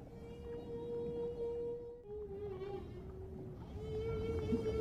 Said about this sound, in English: that's the sound of whales talking to each other underwater.